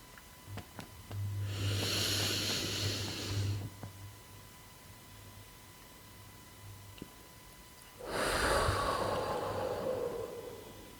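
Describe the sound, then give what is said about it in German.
A deep breath drawn in for about two seconds, held for several seconds of quiet, then let out in one long, soft, breathy exhale over a faint steady hum. “Und noch einmal tief einatmen, einen Augenblick halten. Und die Luft wieder ausatmen.”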